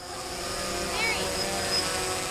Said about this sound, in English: Somebody is flying a small white drone over Fidelity Lake.